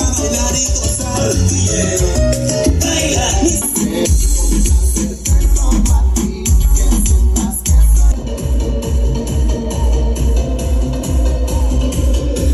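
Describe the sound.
Loud music pounds out of a custom car audio speaker box, with heavy, deep bass driving a dense, continuous mix that stays at full volume throughout.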